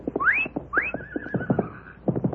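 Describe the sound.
A horse neighs: two rising whinnies, the second trailing into a long wavering tone, with low thuds and rumble beneath.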